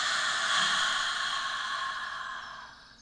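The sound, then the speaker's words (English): A slow, deep exhale during a guided breathing exercise, heard as a single long, soft, breathy rush of air that fades gradually toward the end, with no talking. “Let's take a nice, deep, beautiful first breath of the day or last breath of the day in and release.”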